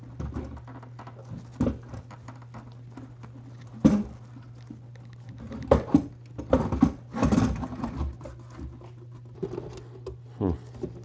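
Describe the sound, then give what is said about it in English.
A part being eased into place and screws started by hand: scattered small clicks, taps and scrapes at an irregular rhythm, some sharper knocks standing out, over a faint steady hum. “And so, what I'll do is I'll gently ease this thing in there and then try to start the screws.”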